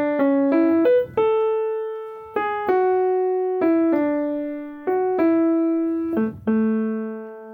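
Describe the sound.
The main theme melody of a video game soundtrack, played as a slow line of clean, sustained tones in a simple instrumental voice. The notes step up and down at an even pace, alone and without talk.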